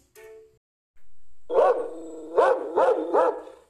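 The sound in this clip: A dog barks several times in close succession. The barks are sharp and harmonic, rising and falling, and come after a brief, longer tonal sound.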